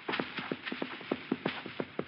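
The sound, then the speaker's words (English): Horse hooves clip-clop ahead: a quick, even run of light, hollow hoof beats repeating in a steady rhythm, heard alone. “Hey, a horse. Ahead of me somewhere.”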